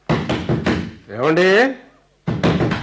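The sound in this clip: Knocking on a door by a thief in a drama, a few sharp raps, then a voice calling out, then another short burst of knocks.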